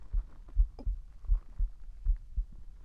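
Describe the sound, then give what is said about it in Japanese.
A racing heartbeat: soft, low, muffled thumps repeating in a quick, steady rhythm, faint and alone with no voices. “ちょっと恥ずかしくてドキドキ早くなってる。”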